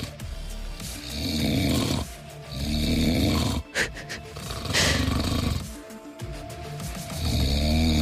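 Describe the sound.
A man snores loudly with deep, rasping breaths. A few long, rattling snores follow one another in a slow, regular rhythm, with nothing else heard.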